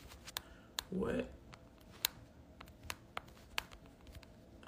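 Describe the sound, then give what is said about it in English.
Quiet typing on a keyboard: scattered, irregular sharp clicks with uneven gaps between keystrokes. “I'm going to type this in because I want to make sure that y'all can see the question.”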